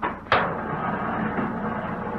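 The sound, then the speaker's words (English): A washing machine lid closes with a single sharp thud, followed by a steady, even rumble of the washers starting and running. “And then, if you'll be good enough to close the washers. And when they're all closed, if you'll start them.”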